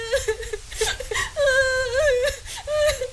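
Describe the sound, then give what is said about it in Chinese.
A girl crying while weighed down by a heavy carrying basket: high-pitched, wavering whimpers and sobs in several bursts separated by short catches of breath, fairly loud. “鼻子一酸，哭了起来。”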